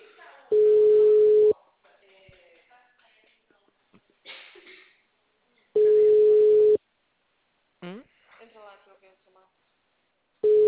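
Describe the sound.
Telephone ringback tone while a call is placed: a steady mid-pitched tone lasts about a second and repeats roughly every five seconds, with a person talking in the gaps between tones.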